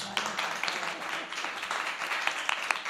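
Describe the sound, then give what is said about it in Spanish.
Applause from an audience at a community centre event: fairly quiet, dense clapping with a few sharper individual claps standing out, continuing steadily throughout. “Fuerte aplauso.”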